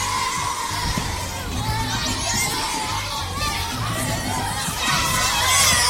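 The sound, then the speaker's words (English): A crowd of children shouting and screaming fills a sound-effect recording with a dense, steady, loud din of overlapping voices and whoops. It holds level throughout and swells slightly louder near the end. “Sounds like there's 100 kids in my apartment.”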